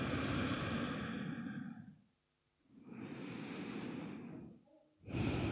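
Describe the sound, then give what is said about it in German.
Slow, deep breathing during a guided relaxation, two long airy breaths separated by a short silent pause, then the start of a third. Loud, breathy and unaccompanied, with no talk. “Nimm ein paar tiefere Atemzüge ein und aus.”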